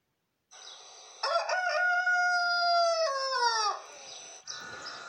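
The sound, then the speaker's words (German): A rooster crows once, a loud, drawn-out harmonic call of about two and a half seconds that holds a steady pitch before breaking off, with fainter noise before and after. “Da krähte ein Hahn.”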